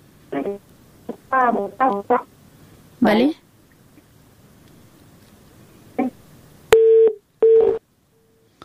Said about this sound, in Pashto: متاسفانه اړیکه یې پریښله.